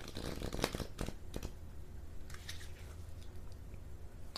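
Tarot cards being split: a faint, papery deck cut with a few soft flicks and riffling snaps, followed by quieter rustling of the cards.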